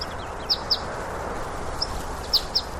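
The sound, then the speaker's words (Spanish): Greenfinch song: a few short, high chirps in two small clusters over a steady wash of outdoor noise. “¿Es el que canta? ¿Es un ruiseñor? No, no es un ruiseñor, es un verdún.”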